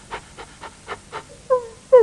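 A person imitates a panting dog with five quick, rhythmic, breathy pants, then two short, louder voiced sounds.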